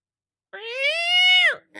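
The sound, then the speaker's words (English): A cat meows once: a single clear, tonal, fairly high call of about one second that holds steady and then drops at the end, with a short start of another sound just after. Nothing else is heard before it. “Is there a cat in this episode? I thought it sounded like a cat.”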